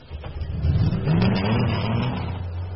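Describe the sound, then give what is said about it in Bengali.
An old Ford car's engine revs as the car pulls out before dawn, swelling into a rising roar that then settles to a steady, moderately loud drone. “ড্রাইভারকে বলাই ছিল যতক্ষণে প্রাচীন Ford গাড়িটা বাইরে বেরোচ্ছে।”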